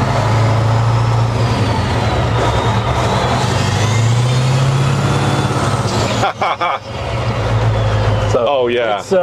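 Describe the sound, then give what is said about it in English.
Loud, steady engine roar from an unloaded heavy truck with a large-displacement engine being revved. The pitch climbs, then eases back, with a few brief dips in level near the end. “Can we give it another little acceleration?”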